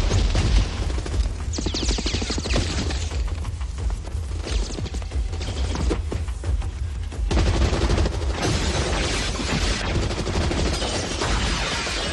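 Loud, sustained gunfire: a dense fusillade of rapid shots and booming bursts that runs continuously without clear gaps.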